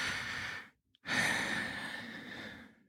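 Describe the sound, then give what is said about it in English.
A deep breath: a breathy inhale, a brief silent pause, then a longer, audible exhale that slowly fades, all fairly soft with no talk. “Take a nice big deep breath.”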